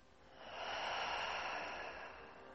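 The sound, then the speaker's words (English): A deep breath drawn in through the nose and let out through the mouth. It is a soft, airy hiss that swells slowly and fades, quiet and with no other sound. “And one more time, deep breath in through the nose and out through the mouth.”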